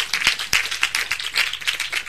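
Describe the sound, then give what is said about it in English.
An audience clapping in a church, a steady patter of many hands with a few sharper, louder claps standing out, continuous and fairly even in rhythm. “If you are clapping, clap better”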